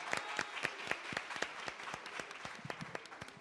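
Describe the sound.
Applause from an audience of secondary school students: many separate claps in quick, uneven succession, each one distinct, at a fairly soft level throughout.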